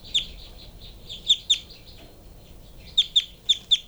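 Bird calls: seven sharp, high chirps in scattered clusters over a low background rumble, with no voices.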